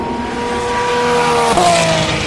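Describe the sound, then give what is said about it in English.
A 911 GT3 RSR race car passes at Le Mans. Its loud, steady engine tone drops sharply in pitch about midway as the car goes by, then continues lower over a constant roar of wind and tire noise. “That was the new 911 RSR2, is it? Is that what they call it? Or just the RSR? GT3 RSR.”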